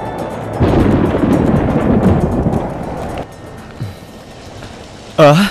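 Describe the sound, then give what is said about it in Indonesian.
Heavy rain with thunder arrives as the weather suddenly turns: a dense, loud, rumbling roar of downpour that holds steady for a few seconds, then drops to a quieter wash of rain. “Hujan? Benar, kelihatannya semakin deras.”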